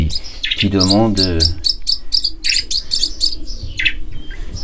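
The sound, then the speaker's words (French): A nearly featherless starling chick in a small incubator calls for food with many rapid, high-pitched begging chirps. The chirps come in quick repeated bursts and stay fairly loud throughout. “on a un petit étourneau qui est arrivé ici quasiment sans plumes et qui est en train de grossir. Donc lui, il est dans une petite couveuse, on l'entend”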